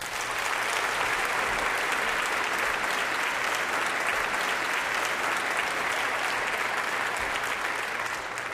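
Even, dense audience applause welcomes an 18-year-old pianist before a two-piano concerto performance, a steady, unbroken wash of clapping from start to finish.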